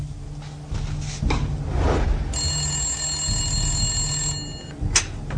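A telephone rings once as a steady, bright electronic tone lasting a couple of seconds over a low rumbling background, with a soft thud just after it stops.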